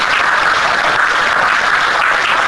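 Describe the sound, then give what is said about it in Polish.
A council session audience applauds two top-achieving students with sustained, dense clapping at a loud, steady level and no break or clear voices. “Jeszcze raz poproszę, wielkie brawa dla nich. Gratulacje dla Państwa.”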